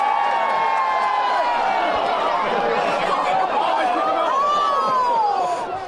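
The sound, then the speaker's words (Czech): Spectators at a cheese rolling race, where a wheel of cheese of up to four kilograms is sent rolling: a dense, steady din of crowd chatter and shouting voices, with one rising-and-falling call late on. “A možná právě kvůli tomu, o jakou bizarnost jde, dodávají diváci Události na místě parádní atmosféru. Přesvědčte se sami.”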